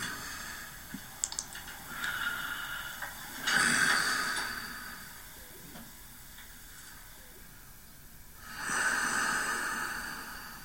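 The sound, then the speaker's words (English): Heavy breathing from a person asleep: two slow, hissing breaths swell up and fade, separated by a quieter stretch, all faint against a low steady background noise. “It appears I've fallen back to sleep. So that's sorry, I'm trying to turn this off. I don't want to listen to myself breathing.”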